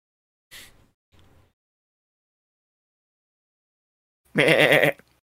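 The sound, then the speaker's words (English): A human voice imitates a sheep in a dice game story: one loud, wavering bleat of about half a second near the end, after two brief faint sounds early on. “so the sheep looks at you with its unblinking sheep eyes. Uh-huh. And it goes,”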